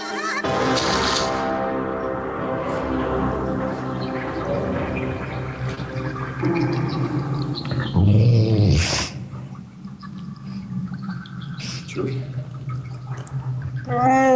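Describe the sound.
Chewbacca the Wookiee from Star Wars: Return of the Jedi growling: a long run of throaty, harmonic moans and growls, with a louder, rougher burst near the end.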